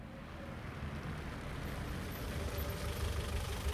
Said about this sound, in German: ein Taxi durch die Potsdamer Straße. Das Leuchtschild auf dem Verdeck zeigt an, der Wagen ist frei.